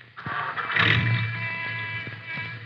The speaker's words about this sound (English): Now, you better start your motor.